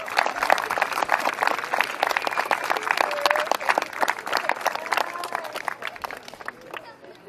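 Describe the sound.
Audience applause welcoming a school superintendent at an opening event for the school year: sustained, dense clapping with crowd chatter mixed in, easing off slightly toward the end.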